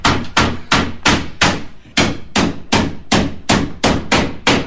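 Hammer blows ring out while shelving is put up: a steady run of many sharp, loud strikes at an even, brisk pace, each one decaying quickly, with no talk.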